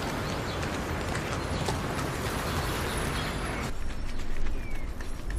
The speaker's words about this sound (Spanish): Vamos, tira de él. Venga, caballito.